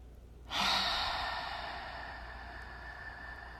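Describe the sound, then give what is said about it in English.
A slow, deep breath during a guided meditation starts suddenly as a loud, airy rush of exhaled air, then gradually fades over about three seconds, heard alone without talk. “Taking a slow and deep breath.”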